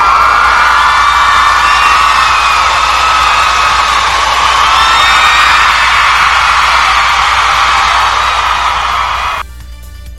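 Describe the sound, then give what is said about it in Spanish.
A crowd cheering an ovation, a loud, dense roar of whoops and shouts that holds steady for about nine seconds and then cuts off abruptly. “Oh, no, eso merece una ovación.”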